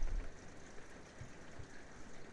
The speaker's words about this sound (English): I'm standing in the bedroom, and this is the rain outside here in California.